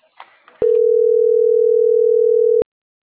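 A telephone line tone sounds as one steady, unbroken pitch for about two seconds. Sharp clicks start and end it, and brief faint noises come just before it.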